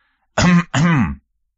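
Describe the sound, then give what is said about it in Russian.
A person clears their throat in two quick, rough bursts: a short one, a brief gap, then a slightly longer one. Both are loud and voiced, with no other sound around them. “резко развернулся, услышав покашливание.”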